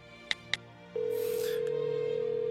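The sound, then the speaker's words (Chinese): A call is placed on a mobile phone: two short, bright key beeps sound, then a steady tone starts and holds unbroken to the end. “仁义掏出手机，沉默地看着龚应贤发给他的那条信息，谢谢。他给龚应贤打了个电话。”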